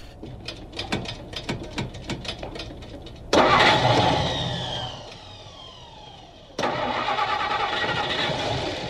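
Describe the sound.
An old car engine is being started: the starter churns in many rapid rhythmic pulses, then the engine catches with a loud roar that gradually settles and is revved up sharply again.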